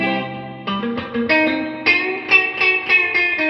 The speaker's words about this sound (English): it's got this really neat tone knob, so I can take it all the way back here. Let's see, just get a darker sounding reverb out of it.